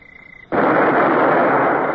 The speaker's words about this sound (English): Aye, sir. Open fire!